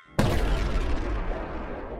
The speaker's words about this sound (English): The lights continue to flicker just before the crystal shatters, emitting a bright light and a large explosion.